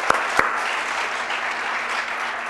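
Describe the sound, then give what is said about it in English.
Applause from a church audience standing together, a steady, dense wash of clapping that holds throughout, with two sharper, louder claps standing out near the start. “Let's give him a hand. Let's everybody stand together.”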